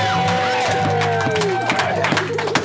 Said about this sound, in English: Let's get another round of applause for our wonderful cast.